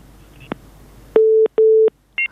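Telephone disconnect tones on a radio call-in line after a caller drops: a faint click, then two steady, loud low beeps and a short higher blip.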